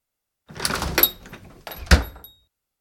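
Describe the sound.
A shop door swings as someone leaves, with a longer rattling burst followed by a sharper clunk, then silence.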